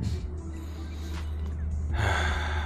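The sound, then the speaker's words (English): A deep breath drawn in, heard as a loud, airy gasp-like inhale near the end over a steady low hum. “taking a breath, letting it all in. Now I release it.”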